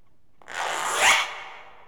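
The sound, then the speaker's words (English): A single zipper pull, a rasping sweep lasting about a second that rises in pitch and then fades. “Z. Zipper. It's a zipper. Zipper. Z. Zipper.”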